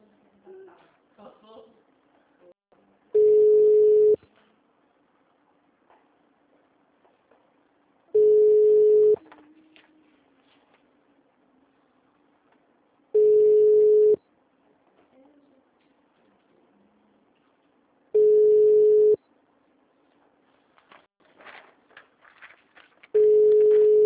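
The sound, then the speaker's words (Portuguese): Telephone call transfer tones come as five evenly spaced beeps, each about a second long at the same steady pitch, with faint background noise in the gaps. “Eu vou tentar te passar para o ramal da telefonista. Me dá só um minuto. Tá bom, pode ser. Obrigada, viu? Disponha. Chamada sendo desviada.”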